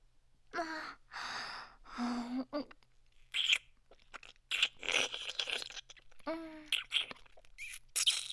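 Someone eating, with quiet chewing and crunching of food in many short bursts, broken by breathy gasps and sighs between mouthfuls.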